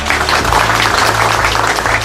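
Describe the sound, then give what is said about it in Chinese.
An audience applauds an honoree of national labour awards, including the May Day Labour Medal and model worker titles, with loud, dense, continuous clapping. “全国五一劳动奖章、全国劳模、大国工匠人才等荣誉称号，大家掌声欢迎。”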